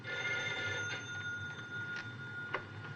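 A telephone bell rings with a steady, bright metallic tone that holds for the whole moment over a low background hum.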